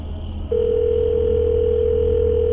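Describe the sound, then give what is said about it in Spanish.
A telephone dial tone, a steady unbroken hum that starts abruptly after a brief moment of low line noise and holds loud and even to the end. “Unos segundos después, consiguió marcar el 911.”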